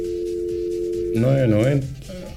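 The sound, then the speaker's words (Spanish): A telephone line tone plays while a call is redialed to reconnect with a caller. It is a steady, low, unbroken pitch lasting about a second before a voice talks over it. “Ya, parece que por ahí lo vamos a retomar el contacto. Ya ahí está marcando.”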